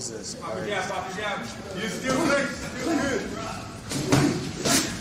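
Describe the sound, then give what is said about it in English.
Heavy punches land as Sean Strickland batters Sneeko in a fight, dull thuds and slaps mixed under steady talking, with a couple of sharper impacts near the end. “Give us some sound on this, please, Brian. My God, Sean Strickland batters him here.”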